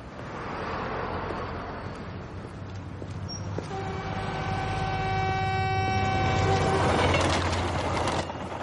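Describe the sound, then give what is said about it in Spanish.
A train passes beneath a bridge with a continuous low rumble that swells gradually, while a steady whining tone holds through the middle of the pass before fading into the roar. “Tira el paquete sobre el tren que pasa en ese momento bajo él.”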